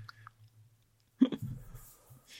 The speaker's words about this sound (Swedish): det, är okej att äta chips under tiden också.